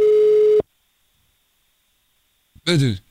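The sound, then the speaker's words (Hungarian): A phone line gives a single telephone tone lasting about half a second as a call is placed to a radio listener. Silence follows, then a voice speaks briefly. “Hívjuk gyorsan a naphallgatóját.”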